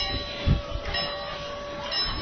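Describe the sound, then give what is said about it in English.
A train rolling into a station gives off a steady, fairly quiet rumble with a sustained whining tone running through it and a few soft low thumps near the start. “Train rolling into the station.”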